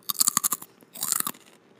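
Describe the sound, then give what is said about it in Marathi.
Crisp crunching as a crispy potato chatpata snack is chewed. It comes in two quick runs of many sharp, bright bites, separated by a short pause, with no talking. “Wow किती crunchy आणि comforting आहे चटपटा”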